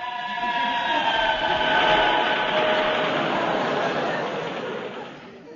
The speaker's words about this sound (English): That was a train.